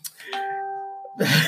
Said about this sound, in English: Every time you hear a bell. Okay. So I think that was my phone.